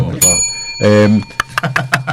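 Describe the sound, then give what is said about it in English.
A bell rung once, giving a bright, sustained ringing tone that lasts about half a second before a voice follows with some talk. “So, ring the bell. We'll knock off. Ring the bell at 1 o'clock.”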